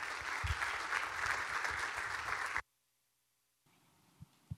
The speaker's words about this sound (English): Would you do me the favor in joining with me in giving a warm welcome to Pastor Theo Monza?